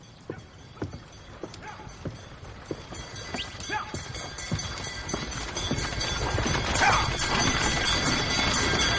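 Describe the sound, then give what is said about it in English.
Hoofbeats of a horse-drawn fire wagon clip-clop past in a steady rhythm, the clatter and rumbling noise growing louder toward the end. “There goes the fire wagon.”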